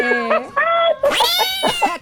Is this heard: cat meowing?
yes